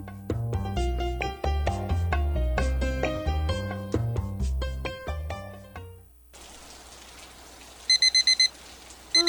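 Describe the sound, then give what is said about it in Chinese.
Rain falls with a steady, soft hiss after a passage of music stops. A few short bursts of electronic alarm beeps sound over the rain toward the end. “今天怎么又下雨啦？”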